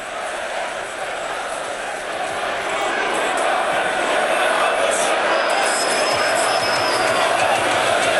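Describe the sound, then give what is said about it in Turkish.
A crowd cheers and roars in a party congress hall as a leader enters before addressing nationalist youth, a dense, continuous roar that swells louder after a few seconds and stays at full strength. “Şu anda da biraz kulak verelim o noktada, büyük bir tezahüratla şu anda o kongrenin yapıldığı salona girmiş durumda.”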